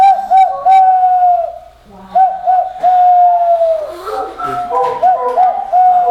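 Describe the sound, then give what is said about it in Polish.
A person blows into cupped hands to imitate a bird call, making hollow, whistling, dove-like coos. They come in three phrases, each a run of quick dipping notes and a held steady tone, fairly loud. “Trzeba się nauczyć tu odpowiednio ułożyć ręce, odpowiednio odmuchać i wtedy ten dźwięk uzyskamy.”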